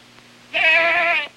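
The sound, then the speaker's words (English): A goat bleats as it is led on a leash into a courtroom: one loud, sustained, wavering cry lasting well over half a second, with nothing else heard around it. “Spectators scatter as a guard hauls in Aristotle the goat on a leash.”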